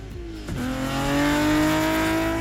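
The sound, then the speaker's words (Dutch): Rally cars race at about 200 km/h along a stage between meadows. A loud, continuous engine roar holds a steady high drone throughout. “Ja, dit zijn auto's die met 200 km per uur tussen de weilanden in Twente doorracen.”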